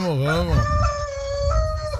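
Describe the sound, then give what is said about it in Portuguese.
A rooster crows once, opening with a wavering, warbling call that settles into a sustained, fairly high drawn-out tone before trailing off. “Canta, galo.”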